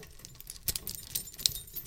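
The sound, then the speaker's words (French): Tempered steel cuffs fixed to a ceiling clink and jangle faintly, with a few light metallic clinks over a quiet, noisy background. “Cliquetis de l'alliage glacé au-dessus de nos têtes, nos quatre bras tendus vers cette nouvelle suspension plafonnière qui n'entrave que toi.”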